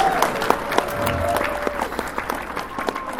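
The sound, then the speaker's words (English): Crowd applause at a team presentation event, with dense, steady clapping throughout and scattered louder claps standing out. “another round of applause for Brayden, because I love him there”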